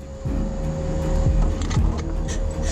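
A heavy log truck driving, its engine a steady low rumble with a sustained tonal whine above it and a couple of brief low clunks.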